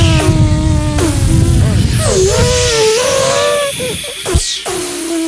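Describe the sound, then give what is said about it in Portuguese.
A Scania truck coming to a stop with an air-brake hiss: a loud, steady hiss with wavering whining tones over it, ending in a sharp burst of released air. “Ó, o Scania parou ali, ó.”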